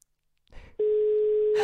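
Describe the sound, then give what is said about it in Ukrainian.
A telephone line tone sounds while a call is being placed. A brief soft rustle comes first, then a steady, single-pitched tone holds unbroken to the end. “Ще раз телефонуємо, телефонуємо пану Роману Ващуку.”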